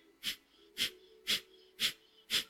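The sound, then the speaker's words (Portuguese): Five forced nasal exhalations of Kapalabhati breathing come as short, sharp puffs of air in an even rhythm about half a second apart. They are faint and heard alone over a low steady hum. “Vamos inspirar a meio caminho e fazer 5 entre 5 a 10 expirações forçadas aí, Kapalabhati.”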